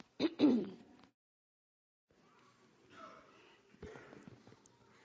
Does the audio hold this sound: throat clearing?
yes